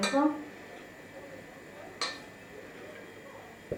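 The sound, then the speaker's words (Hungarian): A spoon stirs two teaspoons of paprika into oil in a pan, giving a few sharp, widely spaced metallic clinks and ticks over a quiet, steady background. “És akkor ebből két teás kanálnyit teszek. Two teaspoons of paprika. És elkeverem benne. I stir it.”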